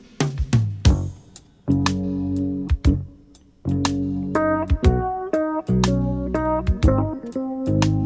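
Music plays from a digital remaster of a studio recording, clean and full, with crisp percussive hits punctuating sustained bass and keyboard chords in a steady groove.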